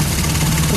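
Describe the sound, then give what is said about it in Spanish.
A motorcycle engine giving a loud, steady rumbling drone with no change in pitch. “Ese es el sonido de una motocicleta.”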